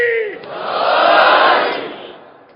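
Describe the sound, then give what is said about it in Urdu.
A crowd at a Shia religious gathering honoring Umm al-Banin shouts the Nara-e-Haidari slogan in unison. After a short lead voice, a single loud collective shout swells, peaks and fades over about two seconds. “میں چاہتا آپ ایک نعرہ حیدری کہہ دیں be be کے نام پہ. شہزادی ام البنین کے نام پہ ایسے نعرہ حیدری کہیں گے”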